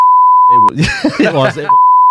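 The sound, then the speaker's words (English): A steady, high censor beep plays, cuts out for about a second of spoken words, then sounds again alone until the end. “For legal reasons, I'm going to have to beep that, obviously, because I don't want to get him to get in trouble.”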